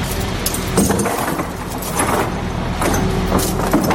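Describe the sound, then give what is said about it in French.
Crane moving into position to lift a steel template onto its side: a continuous rumbling engine drone with broad noise and faint metallic rattles, holding steady in loudness throughout. “La grue est en train de s'approcher pour pouvoir attacher le gabarot afin de le mettre sur le flanc.”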